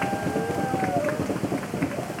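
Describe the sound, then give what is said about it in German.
Surfers bang their hands on their boards at the Eisbach river wave in Munich, a rapid run of many sharp knocks over a constant rush of water. “Bei solchen Tricks hauen die Surfer auf ihre Bretter.”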